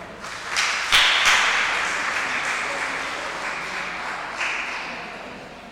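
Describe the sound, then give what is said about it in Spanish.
Applause from an audience at a prize raffle as a winner is named. A burst of clapping with a few sharp, louder claps early on gradually tapers off, then swells briefly again near the end. “Un aplauso.”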